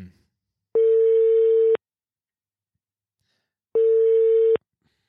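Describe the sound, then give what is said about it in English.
A phone line rings while someone is being called: two long, steady, mid-pitched tones, each lasting about a second, separated by a silent pause of around two seconds. “Let's do that right now. Hopefully he picks up. Here we go.”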